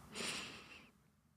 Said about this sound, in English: Take a deep breath in